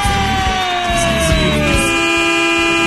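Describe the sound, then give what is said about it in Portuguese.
A vehicle air horn blares loudly in one unbroken, sustained honk, its layered steady tones sliding slightly lower in pitch as it continues. “Vai, buzina aí, vai.”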